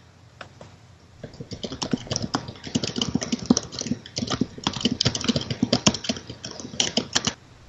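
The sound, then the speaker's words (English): Hard typing on a computer keyboard: many rapid, uneven keystrokes clack out in dense bursts with brief gaps. The sound is loud and steady with no voices. “bang on the keys harder. It'll make it work faster.”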